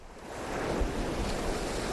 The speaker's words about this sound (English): A stiff, gusty wind churned up the surf as waves crashed along the shore in Hyannisport.